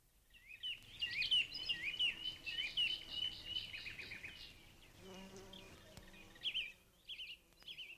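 Garden ambience for a radio drama scene: a faint, steady buzzing of insects with high bird chirps over it, the buzz easing midway while a lower drone and a few later chirps continue.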